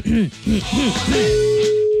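A telephone ringing tone on a call being placed: a few short swooping sounds, then a single steady, clear mid-pitched tone that holds to the end.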